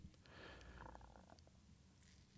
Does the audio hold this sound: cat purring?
yes